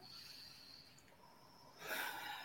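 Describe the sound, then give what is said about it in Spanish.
A deep breath drawn in through the nose during a guided breathing exercise. Faint hiss leads into a single soft, airy rush of inhaled air near the end. “y respiras, inhalando profundo”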